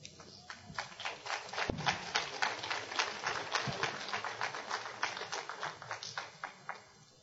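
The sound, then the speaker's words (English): High heels click as a woman walks at a church gathering. Many crisp, evenly spaced taps keep a steady walking rhythm for the whole stretch, then stop near the end. “That's the longest walk I've had on those high heels.”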